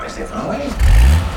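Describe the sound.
The engine of a London black cab, a spacious taxi, rumbles underneath as the ride gets going. A deep low drone swells loudly partway through, with voices talking inside the cab.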